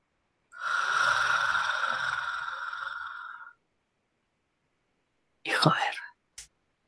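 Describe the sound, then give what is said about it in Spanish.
Heavy breathing close to the ear: one long, raspy, drawn-out breath, then a pause, a sharp snort and a short final puff. “Esa respiración que está a la altura de tu oreja.”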